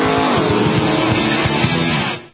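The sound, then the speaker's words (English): Sports cars race at Sebring, their engines making a loud, dense, buzzing roar that holds steady for about two seconds before dropping away at the end. “Sebring, the biggest sports car race of them all, March 18th through the 21st.”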